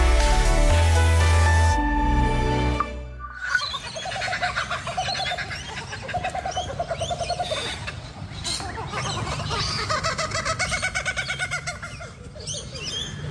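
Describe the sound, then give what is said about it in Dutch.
Kookaburra, a large heavy-billed kingfisher, calling in Gladstone, Australia: a long run of loud, rhythmic cackling calls that rise and fall in waves. A few seconds of music come before the calls. “Lieselot Daverveld hoorde in het Australische Gladstone de Kookaburra. Een grote vogel uit de familie van de ijsvogels met een zware snavel.”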